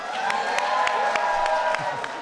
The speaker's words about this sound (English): give a big round of applause to her mom who is here.